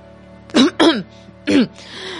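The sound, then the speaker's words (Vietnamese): Someone coughs behind a covered mouth: three short, loud, voiced throat-clearing coughs, then a faint low hum. “Trừ Huân che miệng ho và bước qua lên một bước.”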